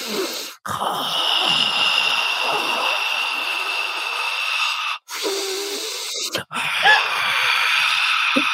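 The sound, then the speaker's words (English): A voice performing Ujjayi breathing: long, hissing breaths drawn through a constricted throat, steady and raspy. A few extended breaths are separated by short pauses. “I think they call that Ujjayi breath.”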